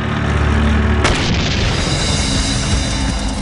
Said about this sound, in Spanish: A ambos lados había dos tanques pequeños. Les disparé.